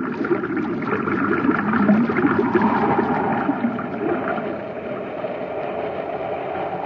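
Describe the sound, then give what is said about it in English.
Water forced in through a pipe by reversed pumps, a continuous churning rush with a low engine-like rumble beneath, fairly loud and steady throughout with no talk. “That pipe isn't drawing water out, it's forcing it in. Someone reversed the pumps.”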